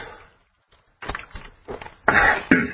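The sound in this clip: Throat clearing by a person with something caught in the throat: a few rough, raspy bursts of moderate loudness. The last bursts are the strongest.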